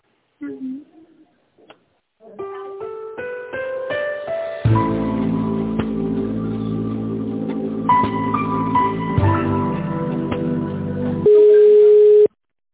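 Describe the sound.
Telephone hold music plays over a phone line while a call is transferred: a thin, band-limited electronic melody of stepped notes that thickens into steady chords, then ends on one loud sustained tone.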